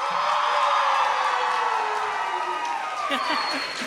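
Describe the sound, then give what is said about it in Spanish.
A live audience at the Lunario del Auditorio Nacional cheers and whoops in a loud, continuous roar of many voices that stays steady throughout. “Como pueden escuchar, hay público en vivo, público hermoso en vivo que nos acompaña hoy.”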